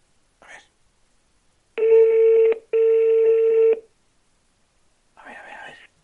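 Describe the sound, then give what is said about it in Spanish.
A telephone places a call with two long, steady electronic tones played back to back. Short, faint sounds come before and after them. “Vamos a llamar a ver si me coge la primera, que llamo a su casa. A ver, va, llamando, llamando.”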